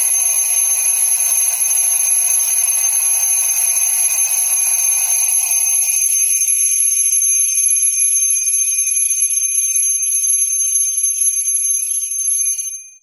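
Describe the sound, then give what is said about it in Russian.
An alarm clock rings with a shrill, piercing, unbroken electronic tone, loud and steady throughout with no voices, then cuts off at the very end. “Будильник взорвался. Резкий, пронзительный, безжалостный звук вырвал из объятий Морфея без малейшего предупреждения.”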